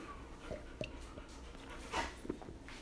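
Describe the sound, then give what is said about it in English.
A dog panting: a few soft, irregular breathy puffs over a low, steady background. The sounds are faint, with no clear talk. “The dog is panting because she's...”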